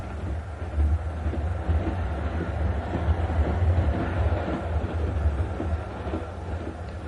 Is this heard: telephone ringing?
no